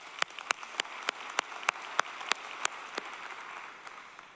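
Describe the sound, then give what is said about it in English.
Audience applause in a church service: a sparse run of distinct claps at a steady, even rhythm that thins out toward the end. “For those of you who are in the room, would you please give them a big hand?”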